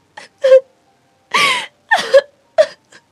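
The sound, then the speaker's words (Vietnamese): A woman sobbing in several uneven bursts of wailing, moaning cries broken by short gasping breaths. The sobs are loud and heard alone, with no talk. “Nói xong, em lại khóc nức nở.”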